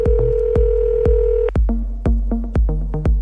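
Telephone keypad tones as a number is dialed, a rapid series of short, clear beeps, each starting with a sharp click and coming closer together toward the end.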